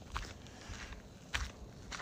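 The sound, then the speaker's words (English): Footsteps on a road at night, a few soft, evenly spaced steps from someone out walking. The tread is faint over a steady background hiss. “tonight I'm just out walking on the road”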